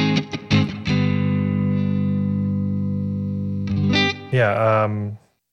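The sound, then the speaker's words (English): Guitar played through a Ghost Echo reverb pedal: a few quick plucked notes, then a long sustained chord ringing with heavy reverb, followed by two more strums that swell and ring out before cutting off. “some reverb? I guess so. I think this pedal is called Ghost Echo.”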